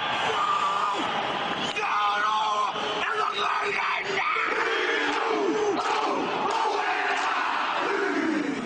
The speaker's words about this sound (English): That would be the New Zealand All Blacks rugby team, Robert, performing their Haka warrior dance, this tradition that the New Zealand teams do before athletic matches.